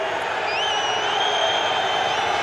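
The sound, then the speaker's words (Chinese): German football fans boo in a stadium during a World Cup match, a loud, unbroken crowd din with a few high whistles rising above it. “也都在场边盯着这个球有没有发出来尤其德国球迷刚才在嘘。”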